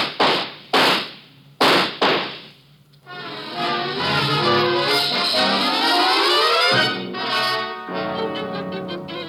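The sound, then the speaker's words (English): A few sharp handgun shots open the scene, each a loud crack with a quickly fading tail, before a long sustained passage of sound takes over. “he has a gun. Get down. Shoot him, Ruba”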